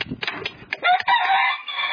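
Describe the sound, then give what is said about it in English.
Pet chickens kept for years, one four and one fourteen years old, cluck and crow: short, choppy clucks for the first second, then a long, strained crow that carries on to the end. “They're singing right now. These chickens sing.”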